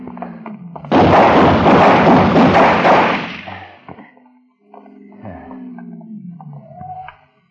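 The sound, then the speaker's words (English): Gunfire from a gunman shooting at people near a street, a loud, harsh burst lasting about two seconds that fades, followed by quieter low rumbling sounds. “He wouldn't stop, Ben. He began firing at everybody in sight.”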